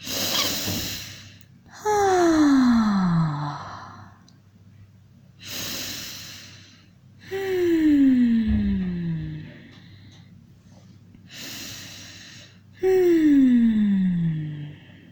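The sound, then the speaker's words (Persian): Deep breathing in a guided relaxation exercise: three slow cycles, each a noisy inhale followed by a long, loud exhale carrying a falling, sigh-like voiced tone. “عضلات شکم و سینه رو حرکت بدی، باز کنی، رها کنی. سه بار با همه وجودت نفس بکش.”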